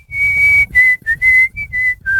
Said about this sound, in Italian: È entrato in studio il nostro re del fischio, presentati con un fischio, come c'è Alvaro Vitali.